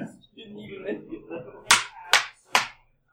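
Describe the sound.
Dice are rolled and bounce on a table during a tabletop game, giving three sharp, loud clacks in quick succession just after a stretch of talking.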